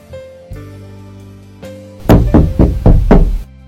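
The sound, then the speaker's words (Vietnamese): Five firm knocks on a door ring out in quick, even succession, loud and sharp, following a stretch of sustained low musical tones. “Tiếng đập cửa vang lên.”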